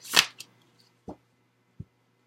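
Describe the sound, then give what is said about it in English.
A card drawn from a tarot deck makes a soft papery swish, followed by a few faint, isolated taps and flicks spaced apart in near silence. “Okay, so I get one more card from the After tarot.”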